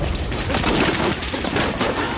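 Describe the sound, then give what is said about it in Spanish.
Heavy gunfire from a war film beach battle scene, a dense, loud, continuous crackle of overlapping shots and blasts that fills the whole stretch without a break. “Ahora ya es ensalada de tiros”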